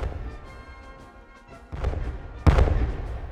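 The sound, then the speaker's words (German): Cannons fire in salute, two heavy booming blasts in quick succession, the second louder and sharper, over a low rumbling background. “Napoleon musterte sie so lange, bis Kanonenschüsse den Übergang Alexanders über den Strom verkündeten. Es fielen deren 40.”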